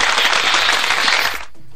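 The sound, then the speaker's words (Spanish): Birthday applause from an audience: a crackling burst of rapid, crowded clapping that holds strongly and then cuts off sharply shortly before the end, leaving near silence. “¿Dónde están esos aplausos?”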